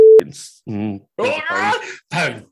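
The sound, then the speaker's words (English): A short, loud censor bleep, a steady pure electronic tone masking a spoken word, followed at once by ongoing conversational speech. “I'll just beep that one out.”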